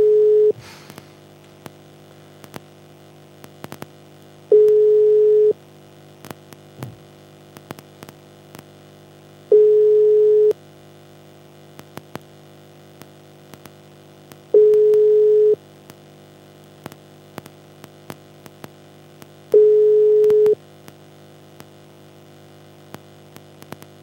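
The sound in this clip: Ringback tones from an unanswered telephone call: five evenly spaced, steady mid-pitched beeps, each about a second long with roughly four-second gaps, over a low steady hum and faint scattered clicks.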